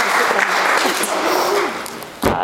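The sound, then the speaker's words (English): A church audience applauds its helpers during a service with dense, steady clapping that stops near the end on a low thump. “Shall we just give our helpers another big round of applause and a big thank you? There we go.”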